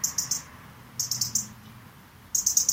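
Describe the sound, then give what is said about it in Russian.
European robin giving its metallic tick call: three quick bursts of sharp, high, dry ticks, each of three or four rapid clicks, separated by short pauses over a faint background. “Она такая металлическая, такой цик-цик-цик. Вот прям ни с чем не спутаешь.”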